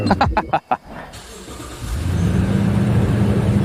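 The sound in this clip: A harvesting machine's engine starting up: a few short choppy bursts, a brief lull, then a low, heavy engine rumble that builds and holds steady.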